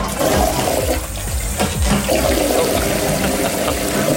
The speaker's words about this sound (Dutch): Hij had er 2 voor nodig, waarschijnlijk. Want het was, ik denk, een nummer 2. Maar hij zat dus duidelijk op de wc.